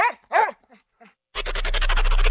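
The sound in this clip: An adoptable shelter dog barking: two short, high, yelping barks in quick succession, followed by a couple of faint, softer yips, then a different steady sound takes over.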